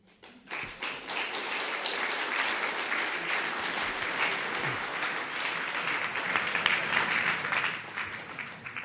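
Debate audience applause: dense, steady clapping swells quickly after a quiet moment and holds evenly for several seconds, then thins out at the end.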